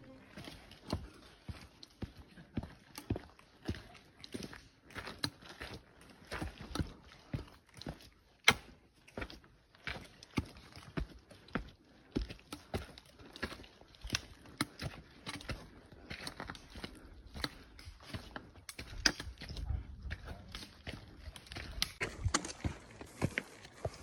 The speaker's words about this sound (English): here's an ASMR from my previous hikes. You can close your eyes and enjoy the relaxing sound of the mountains and the forests.